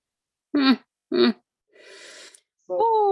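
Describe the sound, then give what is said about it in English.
A deep breath drawn in by a speaker mid-talk: one soft, breathy inhale of under a second sits between short voiced sounds before and after it. “I need to take a breath.”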